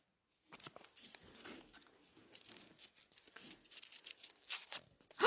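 Paper rustling and crinkling as a name slip is drawn, a quiet stretch of many soft crackles, tears and crumpling sounds in an uneven rhythm.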